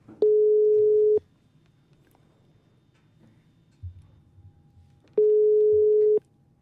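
Ringing tone from an outgoing telephone call: two loud, steady mid-pitched tones about a second long, separated by a quiet gap of several seconds with faint clicks.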